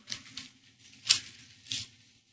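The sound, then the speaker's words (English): Audience members tearing sheets of paper off, heard as a few short, faint ripping bursts separated by quiet gaps. “I want you to rip your paper off just right now. Just rip it off and give it to me.”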